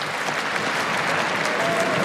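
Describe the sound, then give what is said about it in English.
Crowd applause at a tennis tournament fills the whole clip as steady, dense clapping at an even, loud level. “Fabrice Santoro just asking the crowd to applaud Juan Carlos Ferrero”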